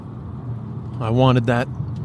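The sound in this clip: Steady low rumble and road hum of a car being driven, with a brief vocal sound rising over it midway.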